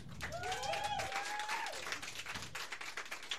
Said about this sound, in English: So by a round of applause, Batman and Bane.